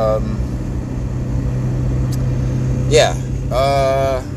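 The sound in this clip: Steady low car engine drone runs throughout, with a brief higher, rising vocal-like sound near the end.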